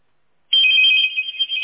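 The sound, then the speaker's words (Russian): A landline telephone rings during a test call: after a brief silence, one sustained, bright electronic ring starts abruptly and holds, with slight wavering, to the end. “Так, сейчас минуту попробуем позвонить на городской для теста.”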